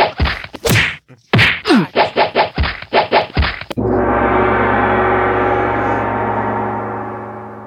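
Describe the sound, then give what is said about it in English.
A gong being punched repeatedly: a rapid run of many loud, dull thwacks, then a final hit that rings out into a long, sustained shimmering tone that slowly fades. “sorry, I had to punch the gong a few times in order to get it to start working again.”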